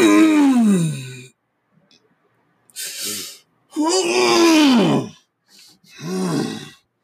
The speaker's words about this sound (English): sometimes yawning just feels fucking delicious, man. You ever yawned and it just like, God damn. I've been waiting to yawn like that all day.